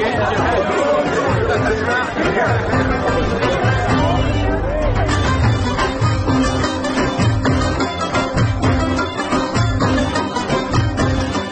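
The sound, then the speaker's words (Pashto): Guests chatter in a crowded two-storey teahouse, a dense, steady hubbub of many overlapping voices that stays loud throughout. “اجمالا، په دې سماور کې څومره ګڼه ګوڼه ده؟ پوهېږې چې دلته ولې دومره ګڼه ګوڼه ده؟”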